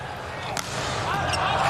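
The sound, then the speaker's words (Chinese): A volleyball jump serve struck hard in a match involving the Chinese team: one sharp smack stands out early, over steady arena noise with a voice talking. “王斌大力跳发。”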